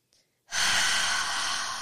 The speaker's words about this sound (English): Let's take a deep breath together, because that feels like a lot.